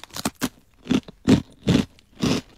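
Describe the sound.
Crisp crunching from someone eating a premium Happy Turn rice cracker dusted with seasoning powder: a few sharp bites followed by about five evenly spaced, loud crunching chews, with no talk.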